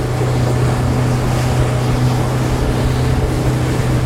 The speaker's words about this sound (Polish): Sześćdziesięciokonny silnik pozwala tutaj osiągnąć duże prędkości i ruszamy.